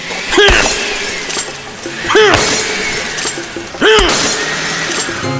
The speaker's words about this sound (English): keep mixing everything until you're bored with what you're looking at, and then smash it into little pieces with a sledgehammer.